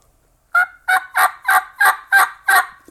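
A reed turkey hunting call, played the way it should sound, gives seven raspy, evenly spaced yelps after a moment of silence. Each note is short and nasal, and the series runs at a steady rhythm with no talking over it.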